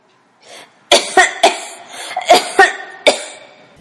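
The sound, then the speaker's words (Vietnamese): Coughing fit from a person coughing blood up from the lungs: a run of six harsh, loud coughs in uneven bursts, with rasping breath between them. “Một cơn ho nữa lại cắt đứt lời của La Da Pla.”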